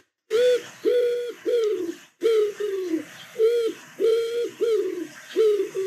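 A pigeon coos in a long run of low, hollow, rounded phrases repeating in a steady rhythm with short pauses between them. The cooing is loud and clear, with no other sounds.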